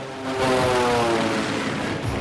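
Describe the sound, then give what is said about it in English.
Seaplane engine droning as the aircraft heads back from a mountain drop-off in the Cascade Mountains, a steady loud roar with a low humming tone running through it. “waves at the seaplane as it heads back.”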